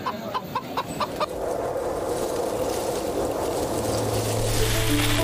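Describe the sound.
A large rooster at a busy morning market in Huainan gives a quick series of short, clucking calls. A steady, low, noisy wash then takes over and continues to the end.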